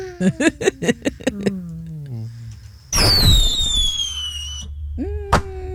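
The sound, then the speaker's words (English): A voice imitates a bottle rocket firework: a loud rushing hiss carries high whistling tones that slide downward, then ends in a short sharp pop. Several short voiced bursts come first. “That's a bottle rocket. Oh, that was a bottle rocket.”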